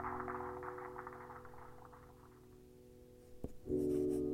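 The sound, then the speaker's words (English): A pen scratching across paper as a man writes a letter: soft, continuous scratchy strokes that fade over a few seconds above a steady low hum, followed by a faint tap. “The man sat back down and continued writing another letter.”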